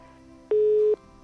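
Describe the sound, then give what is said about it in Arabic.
A telephone disconnect tone after a call is cut off: one steady, mid-pitched beep lasting just under half a second over a faint line hum. “الخط فصل أنا يعني مستاء جدا إنه انفصل الخط”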